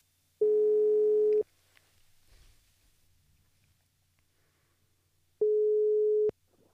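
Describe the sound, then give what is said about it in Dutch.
An outgoing telephone call rings on the line: two steady mid-pitched ringing tones, each about a second long, separated by roughly four seconds of near silence, with no voices. “We gaan hem even bellen.”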